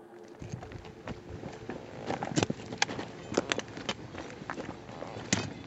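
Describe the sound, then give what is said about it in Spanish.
Footsteps of a search party of women crossing hills and plains, with shovels and picks striking the ground, crunching steadily underfoot while scattered sharp knocks break through at irregular moments. “Este es el sonido de una búsqueda en terreno. Mujeres que recorren montes y llanos, palas y picos que chocan contra el suelo,”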